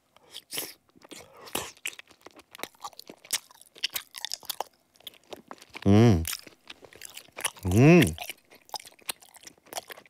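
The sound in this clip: Crunchy chewing of raw carrot gives many sharp, bright bites and crackles, broken by two short, loud voiced sounds from the eater.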